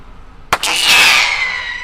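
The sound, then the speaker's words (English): A bird-scaring pyrotechnic round, a blue sparkling shell called a silver comet, is fired from a gun on an airport runway to scatter ducks: one sharp loud bang, then a long hissing, crackling sizzle that slowly fades. “So she uses pyrotechnics shot out of a gun. This one is blue with sparkles coming out the back.”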